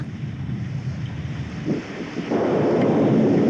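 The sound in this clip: A mountain flash flood rushes down as a broad, steady roar of water that suddenly swells louder partway through and stays loud.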